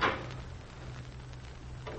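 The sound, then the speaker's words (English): A knock at a door in a solicitor's office: one short, dull thud at the start, then a low steady hum and a fainter bump near the end. “A knock at the door interrupts him.”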